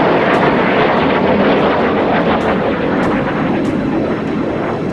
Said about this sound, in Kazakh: Төңкерішшілердің бақылауындағы F-16 жойғыш ұшақтары халықты қорқыту мақсатында Анкара аспанында төмен биіктікте ұша бастады.